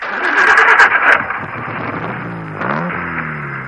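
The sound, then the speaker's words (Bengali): A car engine starting: a busy, whining crank that catches and settles into a steady mid-pitched idle, then a short rising rev toward the end, loud and with no talk. “Driver গাড়ি ছাড়ো।”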